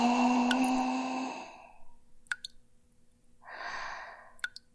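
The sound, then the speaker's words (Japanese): A deep breath drawn in during a guided relaxation exercise, a soft airy rush lasting about a second, preceded by a fading sustained tone and followed by a few faint clicks. “もう一度大きく息を吸って”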